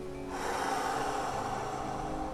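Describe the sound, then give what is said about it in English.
A long, steady exhale during a guided body-scan relaxation for sleep. The soft, breathy rush starts after a brief quiet moment and holds evenly for about two seconds. “Inhale. Now exhale.”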